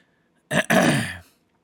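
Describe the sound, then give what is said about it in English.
A man clears his throat in two quick rasping bursts, a short one followed by a longer, rougher one, alone in a quiet setting. “He clears his throat.”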